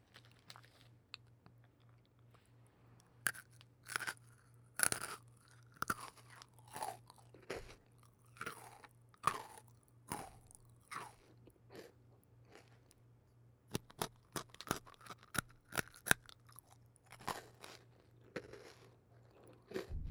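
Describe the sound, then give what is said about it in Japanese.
Someone eating and chewing food, with many crisp, irregular crunches and bites at a quiet level over a low, steady hum. “だったらもうちょっと食べようかな。”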